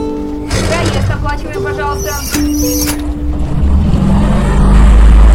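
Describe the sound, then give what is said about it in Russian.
A bus pulls away, its low engine rumble building and growing loud in the last second or so, beneath voices and scattered tonal sounds earlier on. “Автобус трогается.”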